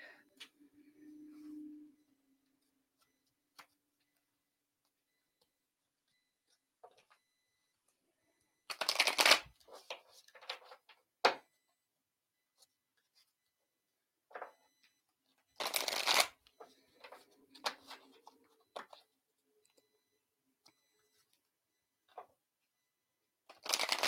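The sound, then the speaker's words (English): A deck of tarot cards being shuffled for a reading gives two loud, riffling bursts separated by quieter card handling and soft flicks, with long near-silent gaps between them. “Shireen would love a reading. I think I'm actually going to pull you a card.”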